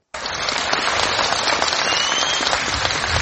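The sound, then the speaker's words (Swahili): Residents of Kogelo village in Siaya County, Kenya, burst into celebration, a loud, dense wall of clapping and crowd noise that starts abruptly and stays steady. “Ilikuwa ni shangwe na vigelegele kwa wakazi wa kijiji cha Kogelo kilicho katika kaunti ya Siaya nchini Kenya.”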